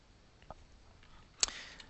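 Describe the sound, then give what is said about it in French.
A faint, sharp computer mouse click on a small link to add an attachment to a comment on a web page, heard as one crisp tick over quiet background hiss. “Donc je vais cliquer sur ce lien très discret Ajouter une pièce jointe.”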